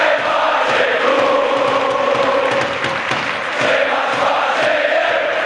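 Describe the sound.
Massed U Cluj football fans chant a terrace song, with many voices blending into a loud, continuous, droning roar.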